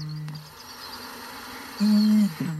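Deep booming call of a bittern at night, a few low, hollow, tonal booms, the longest and loudest near the end, over a faint steady background hiss.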